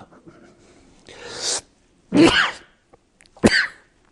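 A person sneezes in a few explosive, breathy bursts separated by short pauses, the last one sharp and abrupt, with no talking.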